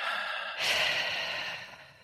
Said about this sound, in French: Inspire par ta bouche, OK? Normalement. Et expire.